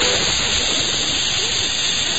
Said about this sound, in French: Mets ta viande dans dans l'huile.